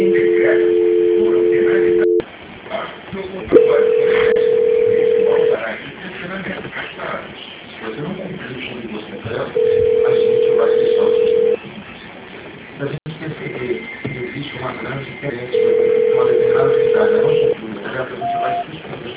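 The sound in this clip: Telephone tones play while a call is being transferred. About four steady mid-pitched tones, each lasting roughly two seconds, alternate with busy, noisy stretches on the line.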